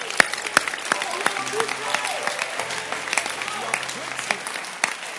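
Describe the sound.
An audience claps during a religious sermon, producing a dense, continuous patter of sharp hand claps with a few louder smacks standing out. Voices carry faintly underneath the clapping throughout.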